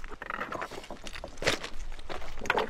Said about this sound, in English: We finish climbing the steep switchbacks to the summit